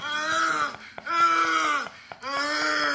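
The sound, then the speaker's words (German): Moaning in three long, loud voiced stretches, each held steady and then bending downward in pitch at its end, separated by brief pauses. “Ist, bist du sicher, dass es der Mann ist, der da stöhnt und nicht die Frau?”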